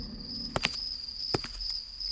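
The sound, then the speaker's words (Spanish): Footsteps at night in a poorly lit area give a few soft, scuffing steps in two quick pairs. A steady high cricket chirp runs underneath the whole time. “Se escuchan unos pasos en la noche.”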